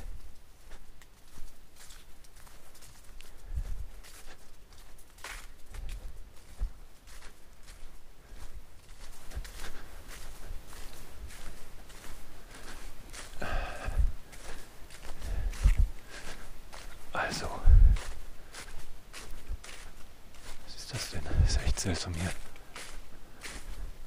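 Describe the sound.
Footsteps on a path around a forest lake at night: irregular soft crunching steps, mostly faint, under nearly continuous talk from a person.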